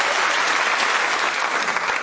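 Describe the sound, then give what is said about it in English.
Audience applause: a dense, steady wash of clapping from a crowd that holds a constant loud level for the whole stretch. “Let's give Steve and his testicle a round of applause.”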